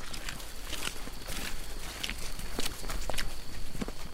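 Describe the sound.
Footsteps of several men walking single file through a Taiwanese forest at night on a hunt, crossing rocky ground and mud; a steady run of soft crunching and squelching steps over constant background noise.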